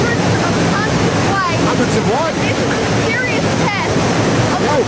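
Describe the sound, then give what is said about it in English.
Waterfall roaring in a steady, loud, unbroken wash of rushing water that fills the whole clip without pause. “To give you an idea of just how she's standing we're under a waterfall.”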